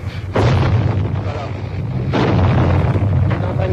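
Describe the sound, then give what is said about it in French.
A tank fires grapeshot during the 1956 Budapest uprising, with bullets striking a wall: two heavy blasts, each followed by a long, loud, crackling rumble. “Il tire la mitraille, vous entendez les balles qui claquent contre le mur.”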